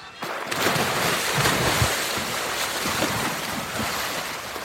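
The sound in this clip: Paddles dipping and a small raft splashing up and down in water, from a film scene, form a steady, dense wash of sound with soft, irregular splashes throughout and no voices.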